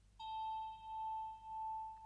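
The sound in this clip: A bell chime struck once during a trance induction, ringing on as one clear, sustained tone that swells and fades gently in slow waves. It stays quiet throughout, with no voices.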